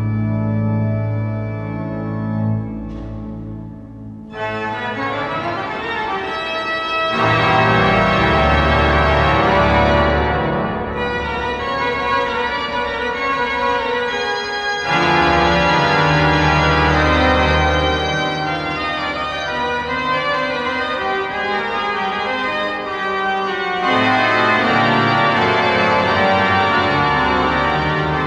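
Grand pipe organ music from the Saint-Sulpice organ in Paris: loud, rich sustained chords that swell and shift, with a brief dip early on before the full texture returns and holds to the end, no voices.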